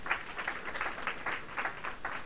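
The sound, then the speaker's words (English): A church audience claps for the Lord during a sermon, giving a steady run of fairly faint hand claps in an uneven rhythm, with no voices. “Come on, get a Lord a hand clap.”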